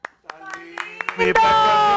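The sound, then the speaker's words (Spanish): Applause honoring footballer Lionel Messi: a few sharp claps over a sustained voice, then a dense, loud burst of clapping fills the final second. “que tiene todo el merecimiento para que lo sigamos aplaudiendo, es Lionel Messi”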